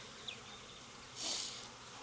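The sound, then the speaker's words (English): Honeybees buzz softly around an opened ten-frame hive during an inspection. The low, steady drone swells into a louder buzz partway through, then settles back to a faint hum. “So it's a healthy hive. It's just a 10 framer. Kind of growing out. No honey being stored up top. Plenty of brood.”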